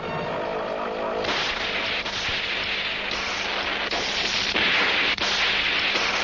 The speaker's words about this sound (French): Ça, c'est le boss de l'épisode qui est en train d'exploser, c'est important.